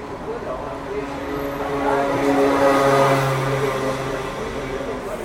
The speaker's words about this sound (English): You can't do an interview in Paris without there being a lot of street noise. Well, that's the noise of Paris.